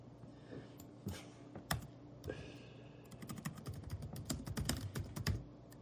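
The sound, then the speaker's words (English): Typing on a computer keyboard: sparse, separate key clicks at first, then a quicker, denser run of clicks and taps near the end, all without speech. “Now, I gotta just type this up here.”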